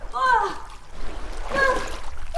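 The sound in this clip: Splashing from a person swimming in cold open water: a steady, broad wash of churning water with voices calling out over it in two bursts.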